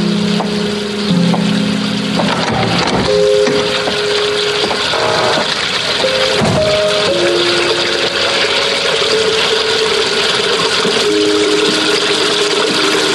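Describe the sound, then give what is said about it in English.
Water left running pours in a loud, continuous gushing rush that never lets up, with faint shifting tones mixed in. “And no, that sound is not Charles Widmore still peeing. He left the water running.”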